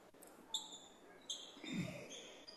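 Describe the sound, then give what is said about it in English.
A basketball is dribbled around the perimeter during a basketball game. A few faint, dull bounces sit under a steady murmur of background noise. “just dribbling around the perimeter”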